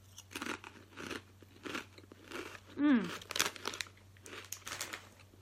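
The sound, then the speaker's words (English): Ready salted crisps from a bag crunch with many sharp, irregular bites and chews over a steady low hum. “Okay, well, I've got my bags of crisps here. I hope you've got yours. Let's taste one and see what we've got.”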